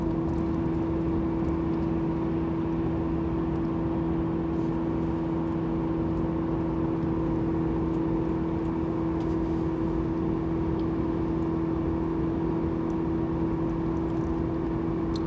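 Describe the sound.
A car drives along a long, familiar route. Its steady engine and road hum is a low, even drone with faint tonal whirring that stays unchanged throughout, and there is no talk.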